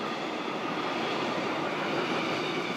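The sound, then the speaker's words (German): A test freight train rumbles into the west tube of the Gotthard Base Tunnel, a dense, steady roar of rolling noise with no breaks or changes throughout. “Wir fahren nun mit unserem Probegüterzug hinein in die Weströhre des Gotthard-Basistunnels.”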